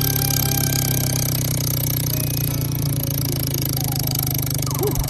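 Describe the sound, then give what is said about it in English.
A prize wheel spinning, heard as a loud, dense run of rapid ticks and rattles that carries on without pause for the whole stretch. “All right, well, spin that wheel, my man.”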